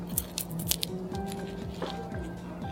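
Crisp crackling bites into a monaka wafer shell packed with ice cream and red bean paste. A few quick, sharp crunches come early, then the sound turns quieter, all at low volume.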